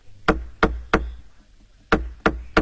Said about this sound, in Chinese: 不多时忽听到外面有人叩门环。